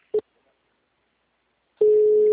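A telephone gives one short beep. After a silent pause, a steady mid-pitched tone starts and holds unbroken to the end.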